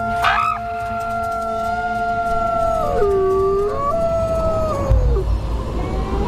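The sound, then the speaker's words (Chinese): Wolves howl to call the pack, several long overlapping tonal howls that hold, bend and slide downward in pitch, loud and clear over a low background rumble, with no talk. “这种特殊的叫声有召唤作用，一群狼应声而来。”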